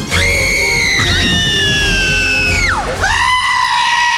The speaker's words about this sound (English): I give this current situation about three screaming goats.